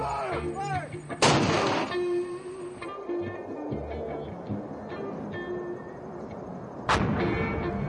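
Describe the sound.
Artillery firing: two loud, sharp booming blasts several seconds apart, over a continuous background rumble with some talking.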